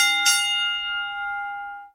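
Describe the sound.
A bell struck once, with a sharp bright strike followed by a clear ringing tone that slowly fades over nearly two seconds, heard alone with no voices.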